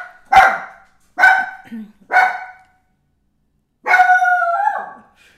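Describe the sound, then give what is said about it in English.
A dog barks four times with short pauses between, the first three sharp and loud, the last drawn out into a wavering, howl-like yowl. “it's the spooky bark that you're talking about. Yeah. It's called spook barking.”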